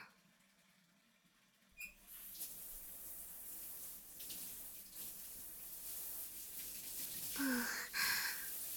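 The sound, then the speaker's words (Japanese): Water runs from a shower tap for a quick rinse, a steady hiss that starts abruptly after near silence and continues faint and even, with a couple of brief louder splashing bursts near the end. “温度はこれくらいかな。自分は先に軽く流しちゃいますね。”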